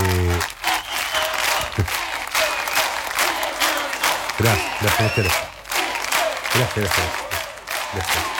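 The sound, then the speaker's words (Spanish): An audience applauds with bursts of cheering and shouting; the clapping swells and dips, with voices calling out over it. “por esos aplausos, gracias, gracias, gracias.”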